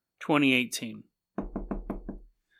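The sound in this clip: Knocking on a door: a voice speaks first, then five firm, evenly spaced knocks follow in a steady rhythm.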